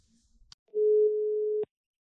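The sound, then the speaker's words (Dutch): The ringback tone of an outgoing phone call: a click, then a single steady mid-pitched tone lasting about a second, ending with another click, with no voices. “Ik ga nu bellen met Albert.”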